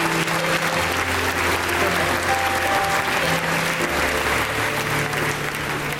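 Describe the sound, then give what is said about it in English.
Applause at a church service as an audience claps for families who dedicated their babies, dense and steady throughout, with a few voices mixed into the crowd. “Would you give a hand to these wonderful families that dedicated these babies?”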